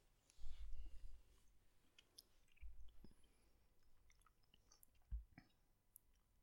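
Faint chewing and munching come from people taste-testing new vegan products that are soy-free, palm-oil-free and gluten-free, in three short bouts of moist, clicking mastication separated by quiet gaps.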